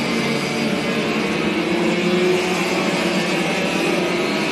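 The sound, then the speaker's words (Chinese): A race car exits turn three on a circuit, running slightly wide, with a steady, dense engine roar that holds at an even loudness from start to finish. “919三号弯出去，右边走的稍微宽了一些，张毅”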